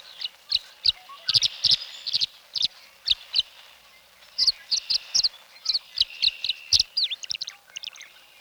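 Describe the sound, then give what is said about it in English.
Tree swallows twitter around birdhouses in many quick, high chirps that come in clustered bursts, with a short lull partway through before the chatter resumes. “And the tree swallows are twittering about the birdhouses.”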